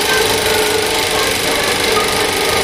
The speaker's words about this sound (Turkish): Sinema projektörü, üstelik halen çalışıyor.